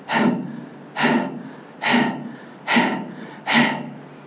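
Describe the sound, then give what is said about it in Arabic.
A voice imitates the laboured, gasping breath of a hospital patient on oxygen machines: five harsh, rasping gasps, evenly spaced and of similar loudness, each rising sharply and fading. “في ناس في المستشفيات الان دلوقتي وانا بدي الدرس دلوقتي وهم على جهازين تنفس، جهازين تنفس اكسجين، وبيعمل كده”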